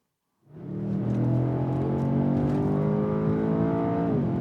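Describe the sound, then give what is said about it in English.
Engine of a Mercedes S-Class convertible with a 612-horsepower AMG engine, heard from inside the car on the Autobahn: a loud, steady drone with strong harmonic tones that rises in abruptly after a short silence and holds. “This is the sound of the Autobahn inside Alex Gruller's Mercedes.”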